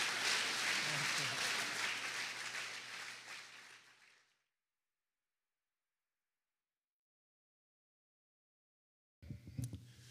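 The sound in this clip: An audience at an Alcoholics Anonymous meeting applauds to welcome a speaker. Dense, even clapping gradually fades away over about four seconds, then silence follows until a brief, different sound near the end.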